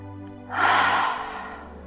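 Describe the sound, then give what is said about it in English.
A long, deep exhale with a breathy 'ha' sound during a relaxation breathing exercise. It is a single soft, airy breath that swells and then slowly fades, heard alone. “Long, deep breath in, and as you breathe out with the ha sound.”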